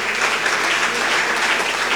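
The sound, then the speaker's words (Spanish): Audience applause at a community gathering welcoming local authorities: dense, steady clapping that fills the whole stretch without talk. “Brindémosle aplausos a nuestras autoridades.”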